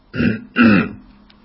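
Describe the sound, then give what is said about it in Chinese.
A man clears his throat twice in quick succession, two rough, throaty bursts, the second louder and longer and trailing off. “多尔衮清了清嗓子”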